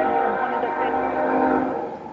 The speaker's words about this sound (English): You guys hear that train in the background?